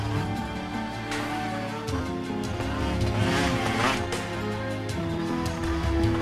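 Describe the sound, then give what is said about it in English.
A trail bike's engine drones as two riders thread across rough terrain past trees, boulders and logs, a steady mid-pitched hum with shifting tones and no pause throughout. “A couple aboard a trail bike swiftly thread their way across rough terrain, dodging trees, boulders, logs, and come to a halt on a flat grassy stretch.”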